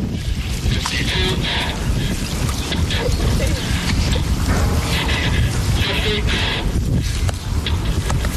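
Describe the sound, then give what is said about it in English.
Churning water and mechanical noise from a working replica of the Turtle submarine being driven in the Mystic River, Connecticut, form a dense, continuous rushing wash with faint rattling mechanism sounds throughout. “That's the sound of someone driving a working replica of the Turtle. It's from 2008, when Roy and his colleagues in the Navy tested a working replica of the Turtle in the Mystic”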